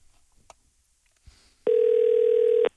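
An outgoing telephone call ringing while a listener is dialed: one steady, even ring tone lasting about a second, preceded by a few faint clicks.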